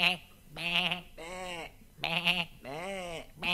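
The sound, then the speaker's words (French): A human voice imitates a goat's bleating, as theatre actors offstage would stand in for the goat: several drawn-out, quavering, nasal bleats with a strong wobble, repeated in pairs with short gaps. “Cette malheureuse chèvre, censée en coulisses, ne se révélait que par des bêlements que chaque acteur faisait à tour de rôle.”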